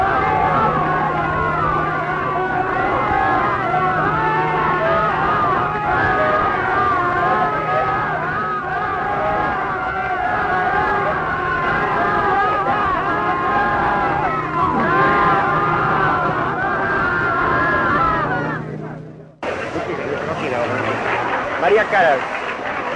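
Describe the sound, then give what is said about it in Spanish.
Audience at a singer's concert cheering and shouting, a dense continuous roar of many voices that cuts off abruptly near the end and then resumes. “Y ustedes pueden escuchar ahora mucho más de cerca a los vítores, los vivos. La emoción del público.”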